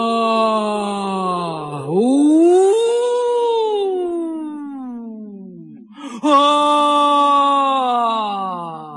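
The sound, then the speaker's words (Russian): A wolf caught in a wolf pit in the forest howls in two long, loud, wavering cries. The first dips, then swells upward near two seconds and slowly sinks; the second breaks in near six seconds. “По мере того, как они приближались к яме, вой становился все ужасней. Казалось, не один волк, а целая стая голодных хищников рыщет по лесам вокруг”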